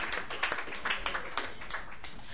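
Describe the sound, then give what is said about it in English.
Audience applause at a Sunday night open mic, a dense, even patter of many hands clapping that holds a steady, moderate level with no voices on top. “So give yourselves a hand.”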